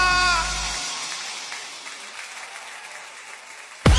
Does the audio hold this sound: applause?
yes